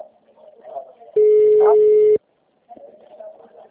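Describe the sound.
A telephone busy signal sounds as one steady, loud tone lasting about a second, with faint voices murmuring before and after it.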